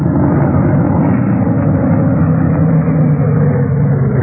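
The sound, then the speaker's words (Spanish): A sports car engine at night among old village houses, heard as a steady, dense low rumble that holds an even level throughout, with no clear rise or drop. “Ya de noche, cuando Calimán regresaba a Rinley, las sombras envolvían las viejas casas del pueblo y el auto sport de Calimán se detuvo.”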